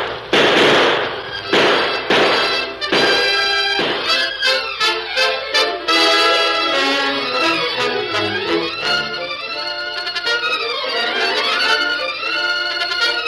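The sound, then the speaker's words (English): Gunshots ring out in a sheriff's shootout with an outlaw: several loud, sharp cracks in quick succession, then sustained dramatic music swells and continues on its own. “Sheriff, he's reaching for his guns. Blast him down!”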